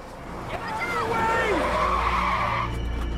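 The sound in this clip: Tires squeal as a hire car skids to a sudden stop, a bending, wavering screech over a low engine rumble that rises and then cuts off near the end.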